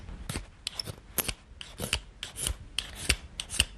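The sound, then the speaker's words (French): Rasping scrapes of a disc-shaped scraper working the inside of a wooden instrument: many brisk, short strokes in a fairly steady rhythm, quiet and dry, with no talk over them. “Je vais utiliser maintenant un grattoir qui est un disque. ce qui me permettra de gratter l'intérieur de l'instrument.”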